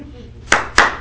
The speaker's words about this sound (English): Clap for yourself for real. Clap for yourself, clap for yourself.